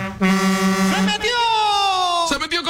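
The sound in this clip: A truck air horn sounds loud and brassy, first as a quick run of short pulsed blasts, then as a longer, wavering held tone.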